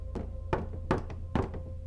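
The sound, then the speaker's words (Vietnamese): Clattering knocks on a wall right beside a person, a few hollow thunks in quick, uneven succession over a low, steady hum. “đột nhiên Hiền rùng mình khi nghe tiếng gõ lạch cạch ở ngay bên vách.”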